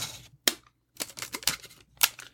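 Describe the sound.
Tape is pulled from a roll and cut, to be stuck on someone's eyebrows in a facial expression experiment. It sounds as several short, crisp ripping and snipping bursts separated by brief silences.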